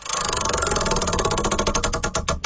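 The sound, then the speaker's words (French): A prize wheel spins with a loud, dense run of rapid ratcheting clicks that gradually slow, the ticks growing more distinct and widely spaced toward the end. “on va tourner la roue pour toi, puis on va aller voir ce qui se cache là-dedans.”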